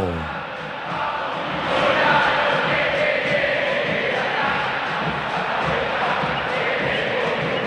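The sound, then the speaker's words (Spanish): A huge stadium crowd roars and chants as the teams come out for an Argentine football match between River Plate and Rosario Central. The dense, sustained noise swells slightly, then holds steady. “Allí están River y Rosario Central y el público, habla el Monumental. ¡Escuchalo!”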